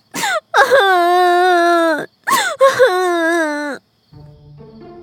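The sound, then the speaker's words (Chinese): A woman wails and moans in pain, crying out in two long, loud, quavering cries separated by a brief break, then a fainter low sound trails off. “听动静似乎是哭了起来，貌似还说痛啊什么的。山下众人皱眉侧耳听着，是还活着吗？好像有女人的哭声。”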